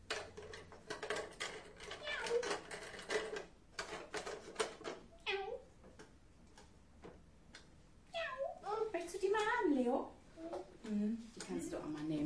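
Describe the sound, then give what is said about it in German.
A child imitates a cat's meow while playing with a toy telephone, producing a few wavering, rising and falling mewing cries between stretches of lively talk from other voices. “Können wir nochmal Miau sagen? Vielleicht möchte jemand mit der Katze telefonieren.”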